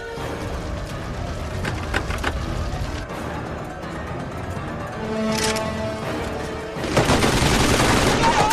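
Gunfire striking an armored limousine during a terrorist attack on a motorcade: rapid volleys of shots over a dense, roaring background, ending in a louder, harsher burst.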